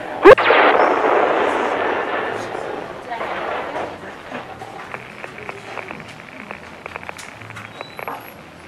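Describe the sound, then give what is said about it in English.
A weapon blast sound effect of a weapon firing on people: one sharp, loud crack followed by a broad rushing roar that slowly fades over several seconds, with faint scattered ticks later on. “My God, it fired on them and killed them.”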